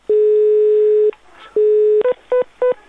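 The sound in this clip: Telephone line tones sound while a call is being placed: two long, steady, mid-pitched beeps, then three short beeps at the same pitch, heard alone without any voices.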